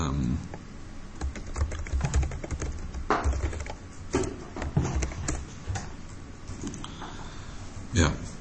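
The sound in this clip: Java code being typed on a computer keyboard: many rapid, uneven keystrokes clatter steadily, with occasional louder key presses standing out from the stream.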